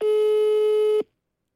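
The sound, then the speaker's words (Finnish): A telephone ringback tone from a call that goes unanswered: one steady, mid-pitched electronic beep lasting about a second, then silence. “Ei, Laura ei vastaa.”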